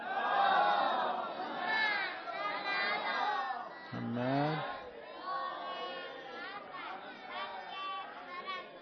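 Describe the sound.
A crowd reciting salawat in unison, many voices chanting together in a steady, full murmur that swells and dips throughout.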